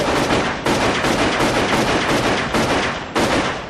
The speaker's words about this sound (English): One of the most effective things that can kill you is a semi-automatic handgun.